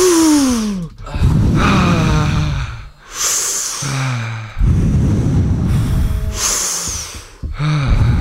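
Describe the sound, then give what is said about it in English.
Several people take deep breaths together: a few long, loud, breathy inhales and exhales follow one another, with airy rushes that overlap and brief wheezy, whistling edges between them. “Everyone, three deep breaths together.”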